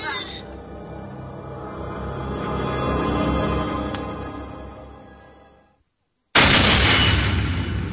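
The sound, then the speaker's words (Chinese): A car crashes into a roadside concrete wall: a rumbling sound swells and fades into a brief silence, then a sudden, loud, harsh impact bursts in and carries on. “车子撞到了路边的水泥墙上，车门打开了”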